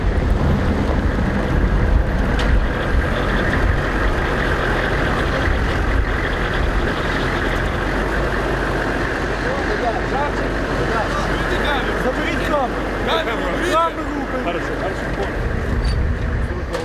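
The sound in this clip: Heavy engine rumble of military Humvees arriving at night with wounded, a loud, steady, low drone of large vehicles that continues throughout, with voices audible amid the noise.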